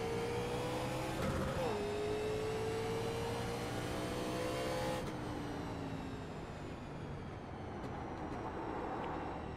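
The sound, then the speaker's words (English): A car engine revving hard in second gear, a sustained tonal drone whose pitch dips briefly, then climbs steadily before dropping away as the engine settles. “You can wind second gear out a little bit more.”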